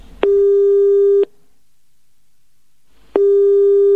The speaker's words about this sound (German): das Mobiltelefon spielt den vorher eingesprochenen Namen zur Kontrolle noch einmal ab und wählt anschließend die Telefonnummer